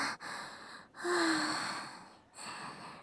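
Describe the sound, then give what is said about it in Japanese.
A deep breath, drawn slowly and released as a calming breath before speaking. A few long, airy inhalations and exhalations are separated by short pauses, with a faint voiced edge on one breath and no words spoken. “人間界を訪れるのは恥ずかしながら初めてなので緊張してるんです。深呼吸。”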